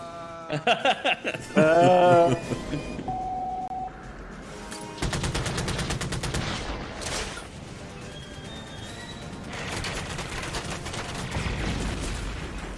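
Gunfire in a video game: rapid automatic bursts crackle out in dense, sustained volleys, pausing briefly before firing again, loud and steady across the second half.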